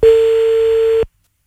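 A telephone ringback tone sounds on the line as a call is placed: one steady, clear beep of even pitch lasting about a second, then cutting off to silence.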